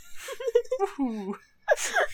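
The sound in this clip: A voice acts out a sneeze: a drawn-out, wavering, whimpering inhale, a short pause, then one sharp, breathy burst at moderate loudness.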